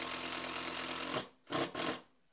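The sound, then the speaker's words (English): A power drill pre-drills screw holes for mounting shelf brackets: a steady, loud whine runs for about a second, then stops, followed by two short bursts. “I'm pre-drilling the holes here just to make it a little easier driving in the screws.”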